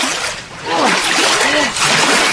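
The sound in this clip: Someone thrashes and splashes in cold canal water, a loud churning slosh that swells and eases, with voices calling out over the splashing.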